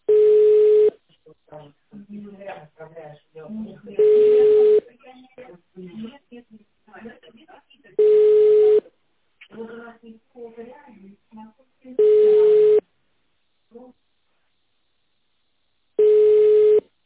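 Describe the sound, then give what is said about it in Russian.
Telephone ringback tone heard while placing a call: five long, steady, mid-pitched beeps repeating at about four-second intervals, with a person talking in the gaps between them. “вот я звоню”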